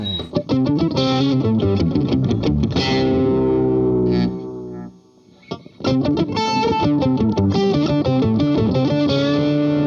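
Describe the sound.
Electric guitar solo played slowly with the filter removed, a distorted, effects-laden tone running through many notes, with a brief drop in level near the middle before the phrase resumes, no voices.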